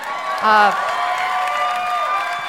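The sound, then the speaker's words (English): A talk show studio audience applauds and cheers for Stockton and its mayor, a steady wash of clapping with a brief voice near the start. “Give it up for Stockton.”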